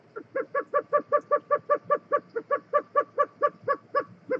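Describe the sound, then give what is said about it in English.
Roadrunner call: a long, rapid run of short, hollow, nasal notes, evenly spaced and steady in pitch, fairly loud and heard alone. “That's the sound of a roadrunner, made famous by cartoons.”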